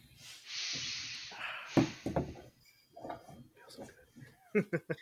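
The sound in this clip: A person exhales in discontent, a long, breathy rush of air lasting about a second, followed by people talking.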